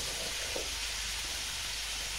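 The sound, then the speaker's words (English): A stir-fry sizzles in the pan just as vegetables are added to meat that is already cooking. A constant, bright hiss of frying holds at an even level, with no talk. “stirred the meat for a little while, it's now time to put in the veg. So, in go the vegetables,”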